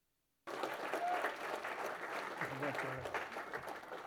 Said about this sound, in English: would you join me in welcoming Pastor Barry Stagner?